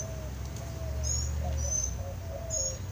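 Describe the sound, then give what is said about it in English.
A couple of birds nearby give a few thin, high-pitched chirps, repeated at irregular intervals over a steady low rumble. “I'm sorry, there's a couple of birds angrily looking at me like, whatever. Look, birds, you can have all the twigs and leaves you want. I am not interested in them.”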